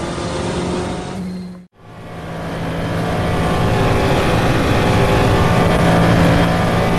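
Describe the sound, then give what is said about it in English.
A Cadillac DPi-V.R prototype race car crosses the start-finish line of a tri-oval at about 198 mph in a 24-hour endurance race, its engine a loud, dense roar that cuts out briefly, then swells again and holds steady. “we're going to come up to the tri-oval much faster this time, and Wayne Taylor Racing's defending Rolex 24 Cadillac DPI VR coming across the start finish line 198 miles an hour”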